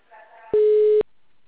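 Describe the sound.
A telephone tone on a call: a single steady, mid-pitched electronic beep lasting about half a second, louder than the faint sound just before it.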